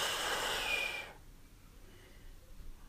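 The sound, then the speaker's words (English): A single deep, breathy exhale rushes out as one long airy hiss for about a second during a guided calming breath, then drops to near silence. “Try one more, love, for me. Breathe in. And let them all go, babe.”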